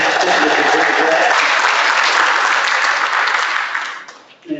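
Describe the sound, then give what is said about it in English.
Audience applause at a live event honoring a crew member: thick, steady clapping from many hands at a strong, even level that thins and fades out near the end, leaving a few scattered claps. “so if you want to give Tony Snyder a round of applause”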